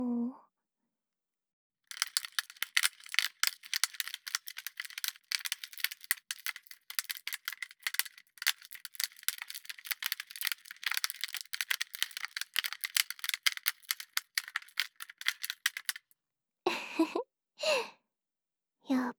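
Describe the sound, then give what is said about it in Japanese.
A product package crinkles and rattles as it is rubbed, producing a long dense stream of rapid crackles, snaps and rustles, with brief breathy vocal sounds at the start and end. “あとは、このパッケージのカシャッパチカシャカシャーって音も、”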